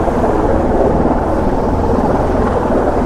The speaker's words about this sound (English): Oh, so many helicopters. So very cool.